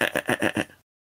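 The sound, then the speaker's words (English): A single sheep bleat, wavering and quivering in quick pulses for under a second, fairly loud, then cut to silence. “You see the same sheep. It bleats.”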